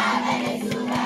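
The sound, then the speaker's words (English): Brief burst of protest crowd noise from Sudan: a steady, dense roar of many voices with a low, constant hum beneath. “that's the sound of protests in the African nation of Sudan earlier this week.”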